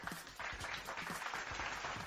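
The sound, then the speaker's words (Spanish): Applause from many hands fills the whole clip as a dense, steady clatter of clapping that holds at an even level for about two seconds without a break. “un aplauso para toda esta gente que está conectada el día de hoy.”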